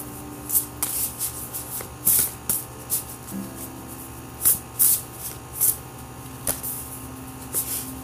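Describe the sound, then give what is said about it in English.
Cards swish and rustle as one is drawn from an oracle card deck, many brief papery bursts at an uneven pace over a quiet background hum. “Okay, I'm going to draw another card.”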